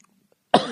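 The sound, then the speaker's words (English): A single harsh cough bursts out loudly after a near-silent stretch and is cut off at the end. “I'm going to try to talk through the coughs.”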